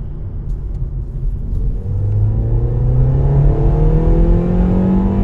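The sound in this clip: A car drives on a motorway with a steady, loud engine rumble. The engine tone climbs in pitch as the car accelerates, with no voices.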